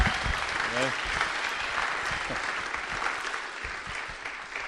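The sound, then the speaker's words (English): An audience at a church applauds to welcome a new pastor. Clapping stays steady and continuous throughout, with a voice speaking over it. “But give him a hand. Welcome the guy.”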